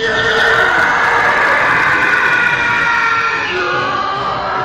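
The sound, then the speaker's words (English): A Star Wars TIE Fighter engine streaks by with a loud, continuous, howling screech over a rough roar, steady throughout and thinning slightly toward the end. “So yeah, the TIE Fighter makes this noise. It sounds kind of like this.”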